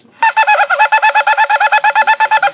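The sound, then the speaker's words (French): A shofar sounds the teruah, a rapid run of many short staccato blasts at an even pulse. The horn is loud and bright with rich overtones, and nothing else is heard. “Vous voyez, trois sons moyens, ça c'est Shevarim. Et Teruah, c'est...”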